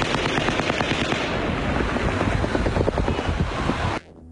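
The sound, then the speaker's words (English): Automatic weapon gunfire during a mass shooting at Mandalay Bay: a loud, dense, unbroken stream of rapid shots lasting about four seconds, then stopping abruptly into near silence. “There's a shooter in front of Hollywood right now. Multiple shooters. Multiple shooters. Multiple, it has to be. There was also shooting going on inside of the Mandalay Bay.”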